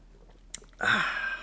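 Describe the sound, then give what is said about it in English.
Someone takes a sip of tea: a small soft tap, then a breathy slurping draw that lasts until the end. The sound is fairly quiet, with no talking. “let me have a little drink of tea here first and to wet my palate, and then we'll get on with the story.”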